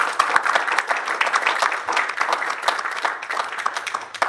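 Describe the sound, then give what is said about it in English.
A church audience applauds as a speaker comes up to give a testimony, steady, dense clapping from many hands that stays even and fairly loud throughout. “So give him a big hand as he comes up.”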